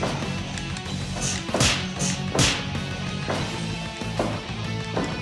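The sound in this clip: Knife-edge chop strikes in a wrestling video game land as sharp, whip-like smacks, several of them, with two especially loud cracks standing out over continuous game background noise.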